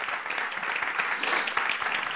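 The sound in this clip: Applause from a church audience welcoming a young family taking membership: a steady, fairly soft wash of many hands clapping that continues unbroken throughout, with no talk.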